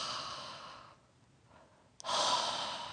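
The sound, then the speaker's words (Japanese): Slow, warm open-mouthed 'haa' exhales, like breath used to warm hands on a cold day, made during a voice-training exercise with the face tilted up. Two soft, breathy outbreaths are separated by a pause, and the second starts more suddenly and sounds fuller. “寒い日にこう、手を温める時に吐く息がありますね。はーってやつ。はー、はーってやつね。いわゆる。あれをします。”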